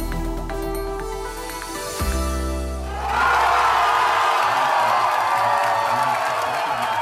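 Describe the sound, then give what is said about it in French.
Supporters of the German Greens cheer their victory in the European elections. Crowd noise swells suddenly into loud, sustained cheering and whooping that carries on to the end. “Non, ce que vous entendez là, c'est de la politique. Les Verts allemands, les écologistes qui fêtaient leur victoire aux Européennes en mai dernier.”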